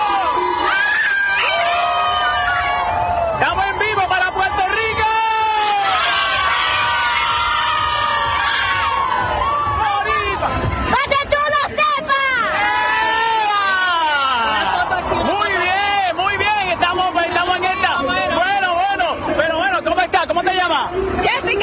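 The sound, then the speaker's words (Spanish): A parade crowd around passing floats cheers, whoops and shouts continuously and loudly. Children's high shrieks rise above the roar, with people talking close by. “¡Qué bueno! ¡Mira cómo está este público!”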